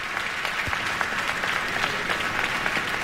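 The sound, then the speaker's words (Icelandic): Audience applause for a duo with a pianist at the closing concert of an arts festival in Eldborg, a dense, even wash of clapping with a few sharper individual claps standing out. “Og tvíekjunum var að vonum vel fagnað á þessum lokatónleikum listahátíðar í Elborg.”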